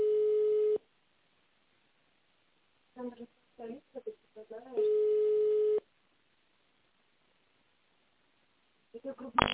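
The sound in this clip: Telephone ringback tone plays on a line while a call is transferred to an operator: two long, steady mid-pitched tones of about a second each. A voice speaks in the silence between them and briefly again at the end.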